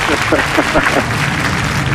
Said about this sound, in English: I wish I had the applause button on. There we go.